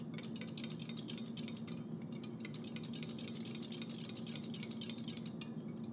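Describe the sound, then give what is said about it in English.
Gentle whisking of kefir while searching for a missing kefir grain, heard as many quick, light clicks and scrapes in an irregular rhythm over a steady low hum, with no talking. “Okay, I don't see the grain yet. So I'm going to do a gentle whisk.”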